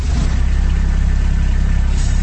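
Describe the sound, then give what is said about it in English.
Kubota RTV utility vehicle engine running at a steady idle: a loud, continuous low rumble with a slight rapid throb. The pitch stays even throughout, with no voices. “That's the sound of a Kubota RTV utility vehicle.”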